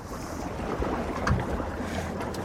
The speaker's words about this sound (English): The wind's picking up. The wind's picked up again.